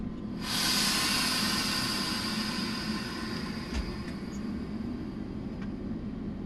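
A train pulling away from a station: a broad hiss starts abruptly and then holds steady and loud, with a few faint clicks and knocks later on.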